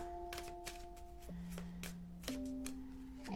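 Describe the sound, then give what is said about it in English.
Cards being drawn one by one from a divination deck: soft slides and light flicks of card stock, a few brief papery snaps over a sustained tonal background. “So there's one card. We're going to pick three cards from this deck. It's number two.”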